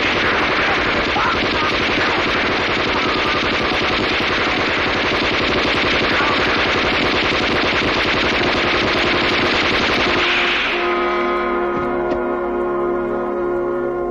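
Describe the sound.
Dense, loud machine-gun and rifle fire from a battle scene in a Chinese film about the anti-Japanese resistance rattles without a break for about ten seconds, then gives way to a sustained tonal drone.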